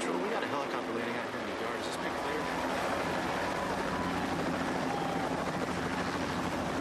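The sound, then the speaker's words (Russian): A helicopter circling over a field, its dense, continuous rotor and engine roar filling the whole clip at a steady, fairly loud level without clear breaks. “Заложив в вираж, вертолет делает круг над полем.”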